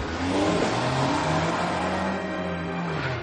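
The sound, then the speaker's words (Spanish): An off-road vehicle's engine roars as it accelerates and drives away, a loud, steady mid-range motor drone with shifting tonal harmonics and no voices. “El todoterreno da marcha atrás. Acelera y escapa.”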